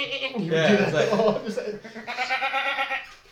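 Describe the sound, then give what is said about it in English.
A person's voice imitates a goat's bleat, giving two long, wavering, nasal bleats with a quavering tremble, loud and close, separated by a brief pause. “Like a, it's like a goat. I used to do that in the halls of school all the time.”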